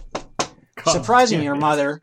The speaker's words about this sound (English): gently knock on your front door